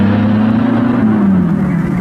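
A car drives off fast in a wartime escape, its engine a loud, steady drone with a low note that holds and then dips slightly, with no other sounds standing out.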